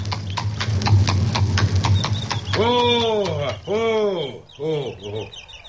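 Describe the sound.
Horse hooves clip-clop as a baron approaches on horseback, a steady run of clopping in the first half, after which people call out and talk while the hooves fade.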